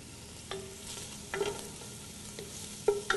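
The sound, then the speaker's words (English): Bacon fries in a pan as it turns crispy and renders out its fat, a soft steady sizzle broken by a few short scraping stirs. “So the bacon's starting to get uh, crispy and we've rendered out a little bit of fat.”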